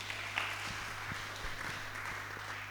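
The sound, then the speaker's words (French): Faint, steady applause from a French-speaking church audience honoring a mother, with many overlapping claps forming a soft, even wash. “Acclamons pour la maman.”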